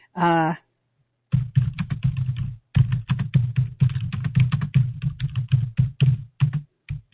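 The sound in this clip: Someone types a message on a computer keyboard, producing many quick, irregular key clicks with soft low thuds. The clicks come in bursts broken by short pauses.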